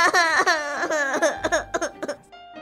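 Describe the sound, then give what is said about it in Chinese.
A young girl cries in loud, high wails with shaky, sobbing breaks, growing more upset after refusing to learn classical poems. The crying is steady at first, then breaks into a few shorter, choked sobs. “竟然哭了起来，还越哭越伤心，越哭越大声”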